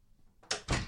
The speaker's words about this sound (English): I shut the door so no one comes in here.